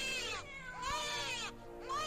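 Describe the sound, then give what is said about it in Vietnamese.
Wailing cries mixing a cat's meowing with an infant-like crying tone, heard in a hospital: a few long, high, wavering calls that rise and bend in pitch, loud and alone. “Kèm theo cái tiếng khóc đặc trưng của trẻ con, nghe đến sốt cả ruột, lại lẫn trong cả cái tiếng mèo kêu.”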